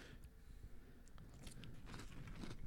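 Crunchy chewing of Lucky Charms cereal marshmallows, a steady run of close, crackling bites and mastication that grows slightly louder toward the end, with no talking.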